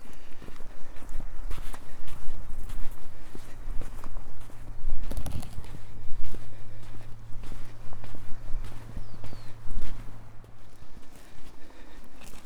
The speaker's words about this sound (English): I walk back up the beach to gain some firmer sand.